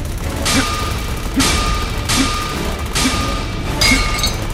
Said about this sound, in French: détruis les barreaux avec ton bras mécanique